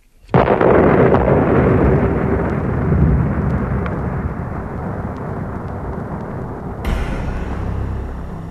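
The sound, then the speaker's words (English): Atomic bomb exploding in the air just under 2,000 feet above Hiroshima: a sudden, loud blast swells into a dense, roaring rumble that slowly tapers, then surges again briefly near the end. “In the first millisecond after 9:16, the atom bomb exploded just short of 2,000 feet above Hiroshima.”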